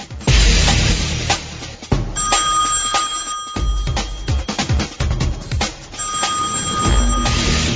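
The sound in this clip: A telephone rings on and on with no one answering. Loud, dense electronic ringing with steady tones repeats over a rough, noisy background, with no voices.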